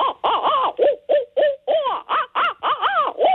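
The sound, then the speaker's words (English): Owls caterwauling in a rapid run of many loud, wild hooting and cackling calls, like monkey chatter or manic laughter. Each burst slides and wavers in pitch, with brief gaps between them. “So the initial calls that you were talking about hearing are what we call caterwauling, and they're very often described as monkey calls or demonic laughter”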